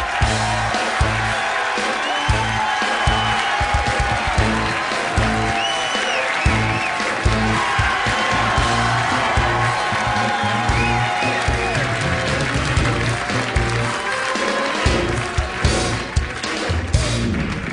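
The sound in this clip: A studio audience claps and cheers as a talk show guest comes on stage, with continuous loud applause and scattered whoops running unbroken for nearly eighteen seconds.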